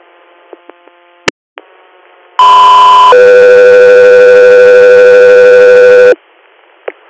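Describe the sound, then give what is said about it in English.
Radio dispatch alert tones for an air ambulance call: a loud steady tone, then a lower sustained second tone lasting about three seconds, with faint clicks of radio noise before and after. “Code 3 Air, stand by for tones”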